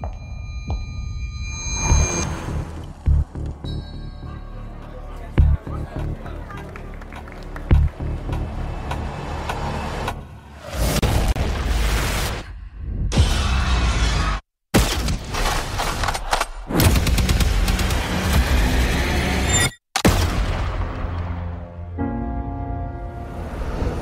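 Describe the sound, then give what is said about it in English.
Film trailer audio: dramatic music with deep booming hits, rumbling and crashing impacts, loud throughout and broken by two abrupt drops to silence. “And in fact, the trailer is pretty good, right? I mean, do we have a little bit of the trailer here?”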